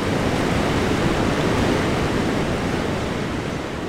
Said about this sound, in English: They're keeping seven inflatable rafts from drifting downstream, where white water is churning, sending an ominous roar up the narrow sandstone walls.